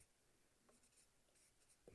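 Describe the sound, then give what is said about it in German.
A pen scratches quickly across a card, faint, dry and continuous, ending in a slightly louder burst of strokes. “Wenn ich schnell schreiben muss, bin ich immer nicht so gut. Identität, das heißt, auf der Karte stehen so ein paar Teile.”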